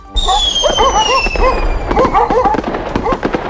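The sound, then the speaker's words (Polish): New Year's Eve firecrackers burst in a rapid, uneven string of many sharp bangs, with high whistling fireworks sliding downward above them. “Petardy w Sylwestra są dla wielu nieodłącznym elementem zabawy.”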